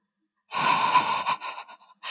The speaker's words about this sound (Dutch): Waarom is hij zo groot, dat paard? Pikzwart, lekkend, alsof het gemaakt is van olie. Stoom die uit zijn neus komt. Hij snuift.